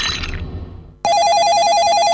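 A telephone ringtone in an advertisement: after a brief sound fades into near silence, a loud warbling electronic trill starts abruptly and repeats steadily to the end.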